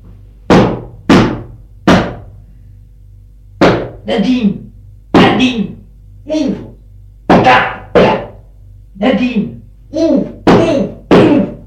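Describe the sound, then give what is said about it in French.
A furious man pounds his fist on a door, giving many loud, heavy thuds in an irregular series. Some blows land singly and others come in quick pairs. “Il est furieux. Tape du poing.”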